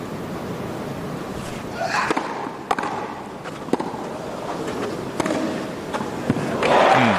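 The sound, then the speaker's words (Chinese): A racket strikes a tennis ball during a professional match, a 137 mph serve met by a fast, deep return, heard as a few sharp, hard pops spaced over a steady wash of background noise. “好球，这个接发球接得真好。那我们看到费里面对对方137英里时速的强劲的发球，这个接发球接得真的是非常出色，又快又深。”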